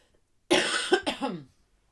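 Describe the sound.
A short fit of loud coughing from a person: one rough burst followed by a few quicker hacking coughs, heard alone without talk.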